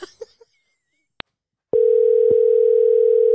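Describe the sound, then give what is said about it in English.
A telephone dial tone is heard while placing a call back. A few faint short clicks and a brief single beep come first, then a loud, steady, unbroken tone that continues to the end, with one small click partway through. “So I'm going to call her back.”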